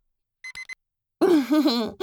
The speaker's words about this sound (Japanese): でも、それを見越してタイマーセットしてた僕って、偉くない？